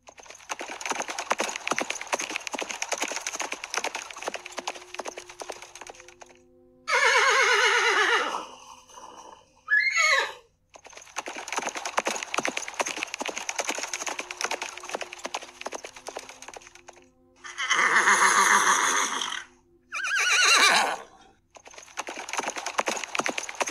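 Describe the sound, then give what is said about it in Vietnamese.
Warhorses neigh loudly as a herd of over 800 captured mounts is driven forward by cavalry, with several shrill whinnies standing out above a steady, dense clatter of hooves. “liền nghe phía sau một trận ngựa hí ồn ào”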